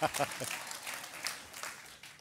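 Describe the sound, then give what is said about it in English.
Applause from a church audience giving a standing ovation to welcome a guest speaker, a steady, faint wash of many hands clapping throughout, with a voice briefly audible near the start. “A standing ovation.”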